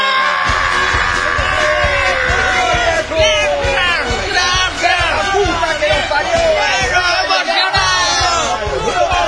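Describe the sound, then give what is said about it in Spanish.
A studio audience cheers loudly as a sports-show host is introduced on a Spanish-language program, a dense sustained roar of whoops, shouts and whistles with voices mixed in throughout. “Qué emocionante es ver cómo el público recibe a Leomar.”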